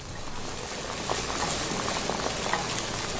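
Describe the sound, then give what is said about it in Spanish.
Food fries in hot oil in a pan, a dense, steady sizzling hiss sprinkled with small crackles and pops throughout, no voices over it. “y vamos a esperar a que se frían bien. Van empezando a agarrar un colorcito así medio como cafecito, ya bien frito”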